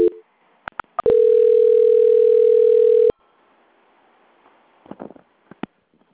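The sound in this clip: A telephone tone sounds during a call transfer at a bank's customer line: a few sharp clicks, then one steady, unbroken mid-pitched tone for about two seconds that stops abruptly, followed by faint scattered line noise.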